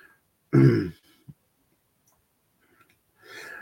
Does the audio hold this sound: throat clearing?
yes